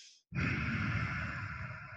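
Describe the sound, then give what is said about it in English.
A single long exhale through the nose, done like fogging a mirror with the tongue tip placed against the mouth, starts abruptly after a brief silence and holds as a steady, breathy rush for nearly two seconds. “So you basically put the tip of your tongue in there and you breathe out through your nose, but you breathe out kind of like as if you were fogging a mirror.”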